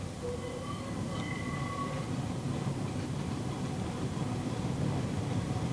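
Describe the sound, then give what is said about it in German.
A tram rattles through a city in November with a steady, even rumbling roar. A few thin squealing tones ring out early on. “Die Straßenbahn mit den großen, schiefen Gesichtern an den Scheiben stößt und stolpert noch immer durch den November. So singt sie ihre quietschende Melodie in die Stadt hinein.”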